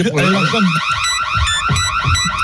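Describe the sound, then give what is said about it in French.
Radio contest alert jingle: a rapid, repeating warbling alarm tone, loud and bright, with a voice briefly underneath at the start. “C'est l'alerte, c'est le coffre RMC. Moi, c'est l'alerte”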